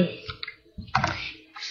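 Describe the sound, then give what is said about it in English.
A cake pan of freshly spread batter tapped on a counter a few times to knock out air bubbles, giving short knocking thumps with brief gaps between them. “After I feel like it's pretty well spread out in the pan, I tap the pan on the counter a couple times, and that helps get any extra air bubbles out”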